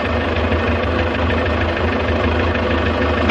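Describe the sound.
A tractor engine runs in a steady, unbroken low rumble with a dense mechanical drone, as the vehicle drives along a country road through flat farmland.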